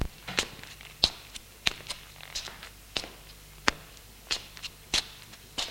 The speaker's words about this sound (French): Et ils se remettent à marcher tous les deux dans la pièce.